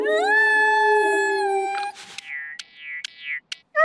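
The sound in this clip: A dog with fleas howls in a long, high, wavering tone, then breaks into a few short, falling whimpers separated by brief silences.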